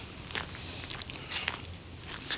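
Footsteps of a person walking toward a nearby geocache: a few soft, crunchy steps at an uneven pace, faint over steady background noise.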